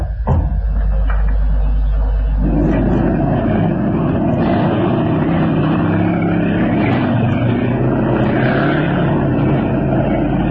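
A car engine roars as the accelerator is pressed to the floor, giving a loud, steady, heavy drone with a deep low rumble that thickens after a brief opening moment and holds strong to the end.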